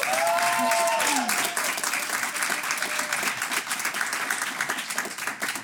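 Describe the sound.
Audience applause at a quiz contest, a dense, loud and steady wash of many hands clapping throughout, with a voice briefly audible over the opening moments.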